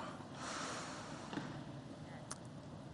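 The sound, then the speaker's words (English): A person takes a deep breath: a soft, airy inhale early on, then a couple of brief, faint sniff-like sounds. The sound is quiet overall and no one talks. “Deep breath.”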